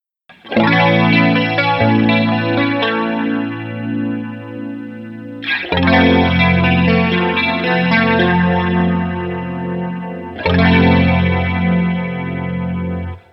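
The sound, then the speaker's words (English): Electric guitar through the chorus setting alone on an Electric Mistress flanger pedal: three sustained strummed chords, each ringing out for several seconds with a shimmering, wavering chorus sheen, and no voices. “I want to hear just the chorus by itself.”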